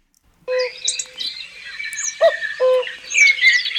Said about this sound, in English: the first one is the cuckoo. That sounds like a real one. Let's listen to the cuckoo.